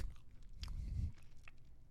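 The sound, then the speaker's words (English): Quiet, wet chewing on beef jerky while sucking out its juice: soft low mouth squelches swell and fade, with a few faint clicks and slurps. “What I like to do when I chew is I'll suck on the juice that comes out.”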